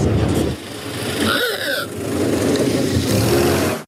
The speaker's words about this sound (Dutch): Het begint uiteraard bij Henry Ford en zijn legendarische Ford T. Die klinkt zo.